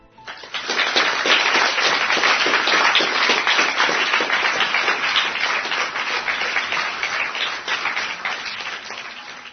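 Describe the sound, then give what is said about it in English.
Loud, dense audience applause for two quiz winners, a continuous wash of many hands clapping that swells quickly, holds steady and then tapers slightly toward the end, with no talk over it. “We shall all give a loud round of applause to these two listeners.”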